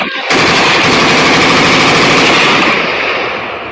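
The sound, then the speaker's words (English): Machine gun fire from a played recording: one loud, continuous burst of rapid shots that starts abruptly and runs unbroken, easing slightly toward the end. “Wait, analyze this. Tell me what you think. It's a machine gun.”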